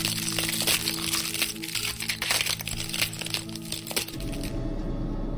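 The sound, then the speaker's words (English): A loud cracking like a bone breaking rings through a room: a dense run of sharp snaps and crinkles for about four seconds, then a low rumble. “there was a loud crack that rang throughout the room.”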